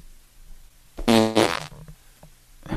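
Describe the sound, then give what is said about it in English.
A person farting while stepping: one loud, buzzing, strongly tonal fart lasting under a second with a brief break in the middle, followed by a few faint, scattered noises. “He's stepping and farting.”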